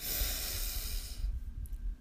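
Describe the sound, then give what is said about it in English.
A slow breath drawn and released during a guided meditation, heard as a soft, broad hiss of air that lasts about a second before fading into near quiet. “And our final breath together. Breathe in”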